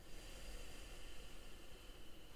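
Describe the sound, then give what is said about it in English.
A deep exhale through the nose during a meditation, a soft, steady airy hiss that holds level for a couple of seconds without a break. “take a deep breath in through the nose. And breathe out.”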